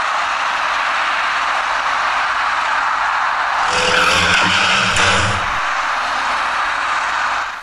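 A dark compact car turning left collides at an intersection with an electric bicycle whose rider ran a red light. Steady road noise gives way to a loud scraping, clattering crash burst lasting about two seconds mid-clip, then traffic noise continues.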